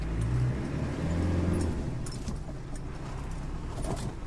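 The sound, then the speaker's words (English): A car drives along a muddy road near minefields on the Thai border. Its engine gives a steady, low rumble that holds at an even level throughout. “Road's getting a bit muddy.”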